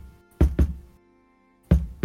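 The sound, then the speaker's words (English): Dull knocking on a door, the last door on the right at the far end: four knocks in two irregular pairs separated by a long pause, with no steady rhythm. “at the very far end, the last door on the right, uh, there is a faint knocking.”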